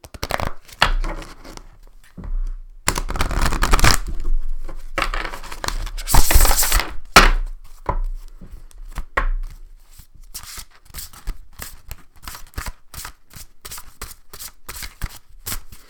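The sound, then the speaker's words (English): Deck of cards with silver edging being shuffled: bursts of rapid, crisp fluttering riffles, louder in the first half, then lighter scattered taps and flicks. “Let's give her a little shuffle. I love these. They have cool, like, silver edging.”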